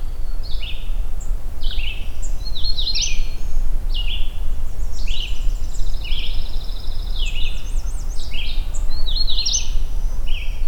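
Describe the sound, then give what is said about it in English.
Bright, rapid warbling phrases from a magnolia warbler on an overcast morning, repeated many times at a high pitch over a constant low rumble of background noise. “What I think is a magnolia warbler here.”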